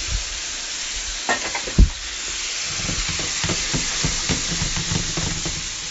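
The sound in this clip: Tomatoes hit a hot, sizzling pan of gumbo base, producing a steady frying hiss with a few soft stirring clatters and one louder thump early on.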